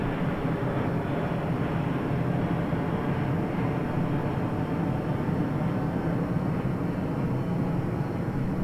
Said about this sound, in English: You could just take in the sound of the jet airplane.